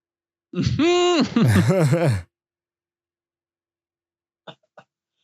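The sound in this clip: A person sputtering and gasping after inhaling beer, a strained, voiced burst of choking sounds lasting under two seconds, followed by silence and two faint, brief clicks.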